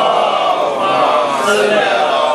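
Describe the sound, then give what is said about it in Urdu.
A crowd chants salawat together in response to a call at an Urdu religious lecture, producing a dense, sustained wash of many voices that holds steady throughout. “نعرہ صلوات”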